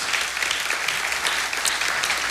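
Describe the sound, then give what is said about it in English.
A church audience clapping in applause during a service, a steady mass of many hands with no pause, fairly strong and even throughout. “Let's give the Lord a clap offering”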